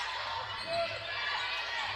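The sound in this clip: Basketball dribbled on the right side of the front court during a women's basketball game late in the contest, the bounces blending into steady, loud arena crowd noise with no clearly separate beats.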